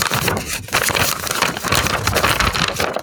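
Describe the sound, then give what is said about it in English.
Paper envelope that was stuck being opened, with loud, continuous crinkling, rustling and tearing of paper for about three seconds and no talk. “Hang on, I haven't heard the envelope sound. Okay. Oh, sorry. Yes, I better open the envelope.”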